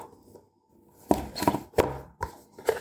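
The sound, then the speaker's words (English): Lid taken off a watch box: a few quiet knocks and scuffs with short pauses between them, the firmer taps coming in the second half. “All right. Taking the lid off.”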